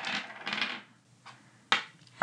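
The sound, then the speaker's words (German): Dice shaken in a hand make a dense, rattling burst, then after a pause land and roll with a few sharp, separate clacks. “Ich schüttel jetzt die Würfel und dann gucken wir mal, was bei rumkommt.”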